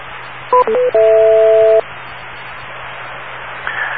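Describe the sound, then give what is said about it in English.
Cell phone dialing tones sent into a radio repeater: three dual-tone beeps, two short ones and then one longer held tone, over a steady radio hiss that carries on quietly afterward. “I'm guessing your cell phone dials a particular number that gets directly into this repeater.”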